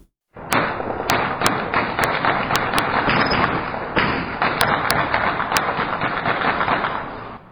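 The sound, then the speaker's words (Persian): Light and heavy weapons fire at night in Sheberghan, Afghanistan, after the signing of an agreement between Ashraf Ghani and Abdullah: a sustained, dense roar of gunfire with many sharp, loud cracks standing out at irregular intervals. “این صداهای فیر اسلحه سبک و سنگین بود که شب گذشته پس از امضای توافقنامه بین دو دکتر محمد اشرف غنی و عبدالله در شهر شبرغان صورت”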